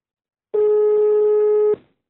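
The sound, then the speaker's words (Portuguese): A single steady ringback tone sounds on a phone line as a call is placed from a pharmacy. It is mid-pitched and even, lasting about a second, and plays alone with no voices. “Eu agora vou ligar, vamos ver se pega!”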